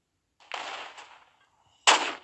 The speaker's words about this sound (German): Boom. Volltreffer. Also ich glaube, ich bin hier der beste Scharfschütze.